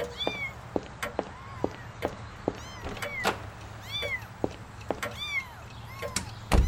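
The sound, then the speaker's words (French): Kittens in a box meow repeatedly in high, thin arching cries, many overlapping, with sharp clicks scattered between them and a low thump at the very end. “Et si je présentais des chatons à Picard? Ah, après tout, il est leur père.”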